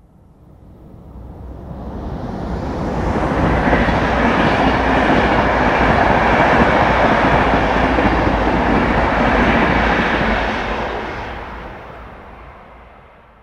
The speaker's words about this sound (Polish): Dla porównania, ponownie przejeżdżający pociąg osobowy przy braku ekranów akustycznych.